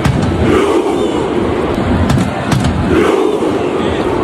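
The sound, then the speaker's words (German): Norwegian football fans chant at the World Cup. Many voices merge into a loud, continuous roar that swells and eases in rhythmic waves throughout. “Das, was ihr gehört habt, sind die norwegischen Fans und ihre Fußballnationalmannschaft an der WM.”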